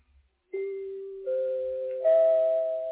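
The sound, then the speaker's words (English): Three chimes sound in turn, each a clear sustained tone stepping up in pitch and ringing on beneath the next, building to a loud three-note chord. “Those are only the three chimes.”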